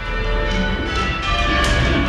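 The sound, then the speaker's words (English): Tower bells on the Kalamazoo College campus, each rung by hand with its own rope, give a continuous wash of overlapping, sustained ringing tones that stays loud and even throughout, with no voices. “When the bells ring on the Kalamazoo College campus, it takes strength and teamwork. As they each control the rope for a single bell.”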